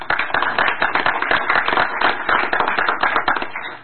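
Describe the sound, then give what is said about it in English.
Applause from an audience welcoming a speaker at an event marking the 20th anniversary of a Spanish-language magazine. Dense clapping runs steadily and loudly through the whole clip with no gaps. “How about a big hand?”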